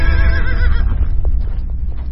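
A horse whinnies as it is spurred into a run, the loud, wavering neigh filling the first second over a dense low rumble, then giving way to a few soft knocks.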